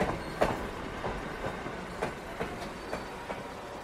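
A passenger train pulls out of a station, its wheels clicking over the rail joints in a steady clickety-clack above the constant rumble of the carriages. No voices are heard.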